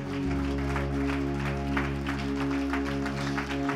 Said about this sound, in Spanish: ¿Cuántos dan un aplauso de alabanza al Señor?